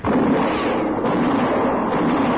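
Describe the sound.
A gunshot in an outdoor Western shootout near tethered horses, as one rider flees out of range. The report is loud and dense, spread across a broad band and sustained through the whole clip with no quiet gaps, and no voices are heard.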